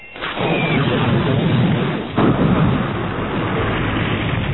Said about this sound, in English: a brilliant needle of laser energy leaped from the top of the spaceport's main terminal building and hit the gun emplacement.